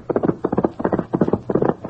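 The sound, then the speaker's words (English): A horse's hooves pound in a fast, driving rhythm as its rider races toward the house. Many galloping beats fall in quick, evenly spaced clusters, loud and alone. “Tonto, observing him, patiently waited another half hour, then leaped into the saddle and raced toward the house. Get him up, Scout!”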